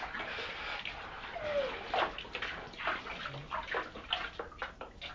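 Water gets tipped out of a tub, pouring and sloshing in uneven bursts with scattered splashes and splatters, fairly faint and irregular in rhythm.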